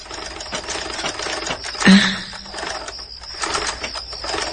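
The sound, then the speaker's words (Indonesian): A household sewing machine runs at night, whirring with a steady, rhythmic stitching chatter whose loudness rises and falls, broken by one louder knock partway through. “terdengar suara mesin jahit berbunyi. Ya, mesin jahit yang sering dipakai ibu.”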